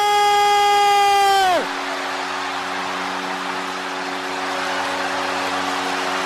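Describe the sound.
Hockey arena crowd celebrating a Sharks overtime goal that wins a 6-5 playoff game against the Colorado Avalanche: a loud horn blast whose pitch drops sharply, then a dense, sustained crowd roar with a steady low horn tone beneath it.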